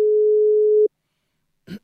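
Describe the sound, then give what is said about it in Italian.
A telephone ringing tone while a caller from Rozzano is being phoned: one steady, low, unbroken tone lasting under a second, then silence and a short soft rustle at the end. “Aspetta che la chiamiamo. È di Rozzano, quindi potrebbe... potrebbe venirci buona. E non so come si chiama, vediamo se risponde.”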